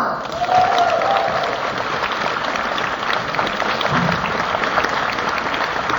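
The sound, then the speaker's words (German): Concert audience applauding the band's pianist on stage: loud, dense clapping that holds steady and continuous throughout. “Einen kräftigen Applaus für”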